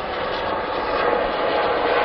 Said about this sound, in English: But, helicopter. Yeah.